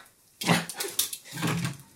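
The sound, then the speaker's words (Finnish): A dog whimpering in the room during a live comedy stage set: two short, breathy, whiny bursts, fairly faint, with no talk over them. “Hei, toi koira pilaa mun 15 minuuttia julkisuudessa kyllä.”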